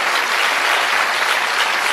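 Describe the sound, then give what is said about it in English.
An audience applauds during a political speech: many hands clap in a loud, dense, even roar that holds steady from start to finish. “You notice how she paused for the class envy applause?”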